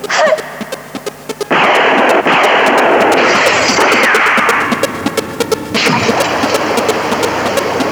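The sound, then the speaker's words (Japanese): Gunfire from a fired weapon: many sharp, loud bangs crack in rapid succession over a continuous roaring noise, without a break. “構わんから撃て。”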